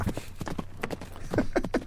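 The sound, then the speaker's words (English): Horse hooves clip-clop in an uneven series of sharp, hollow knocks, many hoofbeats in quick succession over a low steady hum. “Put her on that horse and slap the horse's ass. That's me heading over to your house.”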